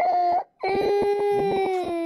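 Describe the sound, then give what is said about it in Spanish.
A baby cries in two bursts: a short wail, a brief pause, then a longer pulsing cry with sobbing breaks. “No llores porque aquí están los hermanos, mira.”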